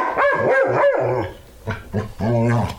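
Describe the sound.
A dog barks and yips a few times in a pet grooming advertisement. The barks are short, bright and moderately loud, with a voice heard alongside.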